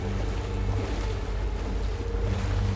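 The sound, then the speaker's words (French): Steady wind and sea wash surround a sailboat under full sail on the open sea. The sound is a continuous, even rush with a low rumble underneath and no voices. “Le bateau vogue en pleine mer, les voiles gonflées par le vent.”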